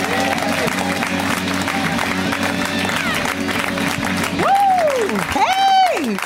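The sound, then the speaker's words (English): An audience at a stand-up comedy show applauds as a comedian is brought on, steady clapping running throughout, with a couple of voiced whoops rising out of the crowd near the end. “So let's hear it right now for Joelle Johnson. Give it up. Come on.”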